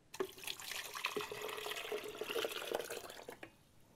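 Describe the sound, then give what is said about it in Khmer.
Coconut water containing pieces of coconut flesh is poured into a bowl, a continuous trickling and splashing of liquid with a few brief drips, easing off near the end. “យើងចាប់ផ្ដើមដាក់ទឹកដូងចូលចានៅក្នុងទឹកនេះគឺមានសាច់តែម្ដងគឺសាច់ដូង”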